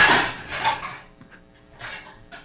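Pots, pans and cutlery clatter in a kitchen while egg roll in a bowl is cooked: a few loud metallic clanks and scrapes, followed by quieter knocks.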